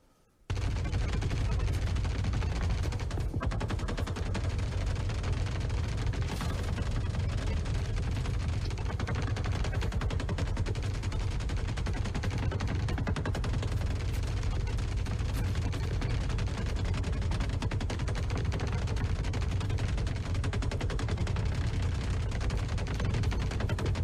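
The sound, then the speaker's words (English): Video game gunfire from Star Citizen test footage of AI characters shooting at each other from behind breakable cover and Maelstrom barrels. The barrage of overlapping shots stays loud and dense throughout. “here's some video of some test footage of AI shooting each other behind breakable cover and Maelstrom barrels.”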